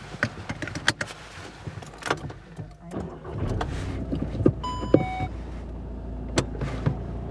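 A car prepares to set off and drives on a trip in Nuremberg. A few scattered clicks and clunks lead into an engine that settles into a steady low hum, with a short electronic chime and more clicks over it.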